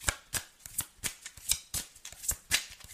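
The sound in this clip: Tarot cards being shuffled in a quick run of crisp, papery flicks and slaps, many sharp bursts in an uneven, rapid rhythm, fairly soft and with no talk.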